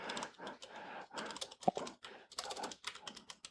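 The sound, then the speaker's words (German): Computer keyboard typing while looking up a transaction: bursts of rapid clicking separated by short pauses, quiet and uneven, with no talk. “Also man tippt sich da schon ordentlich die Finger wund, wenn man wissen will, was das jetzt für eine Transaktion ist.”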